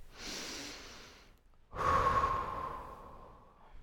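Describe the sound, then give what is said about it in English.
Slow, deep breaths from a woman leaning against a bathroom wall with her eyes closed, each one long, breathy and soft, with a short pause between them and no talk. “She leans her back against the wall, closes her eyes, and takes several deep breaths.”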